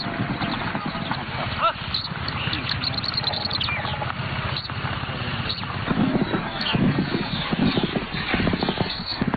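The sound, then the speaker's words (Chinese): A horse galloping with its rider past a Mongolian yurt on the herding grassland, giving a quick, continuous patter of many hoof strikes that grows stronger and more regular toward the end. “蒙古包前一骑飞驰，发生什么事了？”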